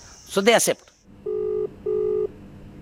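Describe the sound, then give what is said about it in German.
A telephone number being dialed: after a brief burst of speech, two steady electronic dual-tone beeps of equal length sound one after another, moderately loud against a quiet background. “Ein Anruf bei Namita Bandare.”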